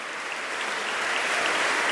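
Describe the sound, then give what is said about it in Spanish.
Church audience applauding catechists, a dense, continuous patter of many hands clapping that swells slightly in loudness over its short span. “démosle un fuerte aplauso a los catequistas para que el Señor pues los ayude”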